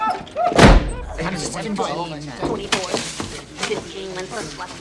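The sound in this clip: A single heavy door slam as visitors leave, a sharp loud thud near the start followed by people talking.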